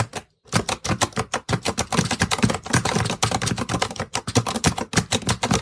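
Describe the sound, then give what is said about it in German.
A refreshable braille display, with a phone placed right behind it, makes a dense and rapid clicking like fast typing. The clicks run loud and nearly continuous, with only a brief gap near the start. “Und ich lege jetzt mal das Handy direkt hinter die Zeile. Einen Moment. Und jetzt hört ihr mal die Braillezeile.”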